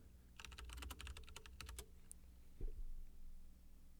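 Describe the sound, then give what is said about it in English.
Typing on a computer keyboard: a quick, dense run of clicking keystrokes fills the first half, then the tapping stops and only a low, steady hum remains. “I type in ASMR Chess”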